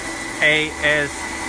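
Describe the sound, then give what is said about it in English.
An Ashe coffee roasting machine running a 4-kilo batch of coffee: a steady, even mechanical drone, broken by two short bursts of a person talking. “We're using our roasting machine. We're gonna do a batch of 4 kilos. The brand of the machine is Ashe,”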